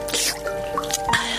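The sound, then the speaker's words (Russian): Holy water is poured onto a face at a baptism in a church, heard as a few short wet drips and splashes over a sustained tonal background. “18 февраля 1564 года, когда святая вода уже льется мне прямо на лицо, меня крестят в местной церкви святого Эммануила”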